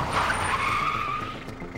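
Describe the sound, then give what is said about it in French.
Tires squeal as a car skids to a stop on the roadside: one sustained, high, steady squeal lasting nearly two seconds at even loudness, with no voices. “soudain donne un coup de volant et s'arrête en dérapage sur le bord de la route.”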